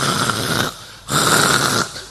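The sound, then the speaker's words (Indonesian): A spouse snoring: two long, rough, rasping snores separated by a short quiet gap, with a third snore just beginning at the end. “Itu pengertian bojo ngorok.”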